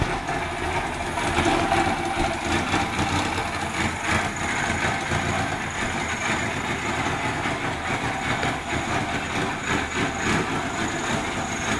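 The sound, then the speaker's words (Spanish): Steady, loud drone of a running SEAT 127 car engine, a continuous rough rumble that holds evenly throughout without pauses or talk. “Así puede compararse el sonido de este anuncio con el del motor de un SEAT 127.”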